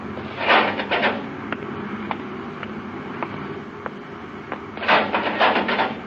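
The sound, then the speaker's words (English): Inner hatch of a spacecraft observatory opening: a loud mechanical whoosh, then a run of evenly spaced clicks, and a second whooshing burst near the end. “Open the inner hatch”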